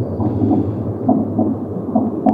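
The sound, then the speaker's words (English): Rhythmic, squelchy heartbeats: low, muffled, wet-sounding pulses repeat at a steady pace, several in a row over a soft throbbing background. “you hear these rhythmic, squelchy heartbeats”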